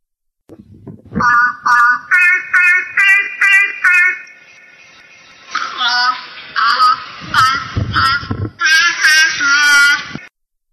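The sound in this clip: A seal imitates Twinkle, Twinkle, Little Star after synthesized guide tones. Many short, evenly spaced electronic notes play the tune first, then the seal follows with a longer series of rough, wavering, vocal notes, loud and alone.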